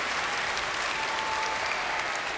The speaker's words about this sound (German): Applaus mal für die beiden, die haben ja schon richtig gut geholfen.